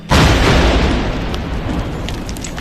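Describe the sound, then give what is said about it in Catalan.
A single loud, deep boom from the controlled detonation of a loaded 75 mm Civil War artillery shell, bursting suddenly and then fading into a long, broad rumbling roar that lasts for several seconds. “Este és el so d'una de les detonacions controlades. Els artefactes de 75 mil·límetres de diàmetre estaven complets i amb càrrega al seu interior.”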